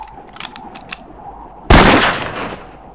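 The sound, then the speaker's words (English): A single loud rifle shot fired at a bottle on a fence post about 100 yards away, a sharp crack with a trailing decay, preceded by a few faint clicks in near quiet. “You're my guest, so you gets to shoot first. Got your rifle? Always. Aim carefully now.”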